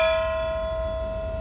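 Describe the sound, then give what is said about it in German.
A bell struck to call tour passengers to dinner near Karlsborg, heard as one bright ringing tone with steady high overtones that fades slowly. “Gong, die Glocke hat zweimal geschlagen”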